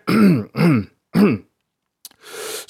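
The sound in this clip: A man clears his throat: three short, gruff voiced bursts, then a pause and a breathy, rasping exhale.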